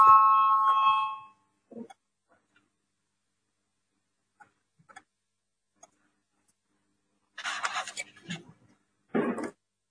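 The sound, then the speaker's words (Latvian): A parliament voting bell rings as a steady, bright electronic tone for just over a second, then stops. Quiet follows, broken by a few faint scattered noises. “Lūdzu, zvanu, balsosim par 30.”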